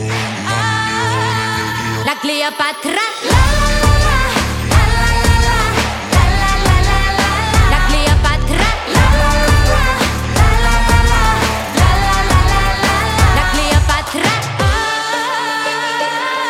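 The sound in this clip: A song chorus pairs a pounding electronic drop with traditional instruments. Sustained melodic layers give way after a brief pause to a heavy, driving beat under dense, loud music, easing back briefly near the end.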